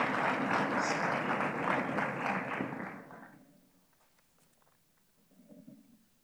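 A church audience claps to welcome their bass player, a burst of fairly soft applause that holds for about three seconds and then fades into quiet.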